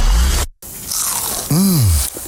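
Crunchy food is bitten with loud, crackly crunching. A brief silence follows, then a bending tonal swoop rises and falls.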